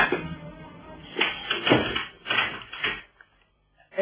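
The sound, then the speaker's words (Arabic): A door being opened, heard as a few muffled bumps and scrapes of moderate loudness, then a short quiet stretch and one more brief knock. “يا جماعه كده ما يصحش، انا هروح افتح الباب بنفسي.”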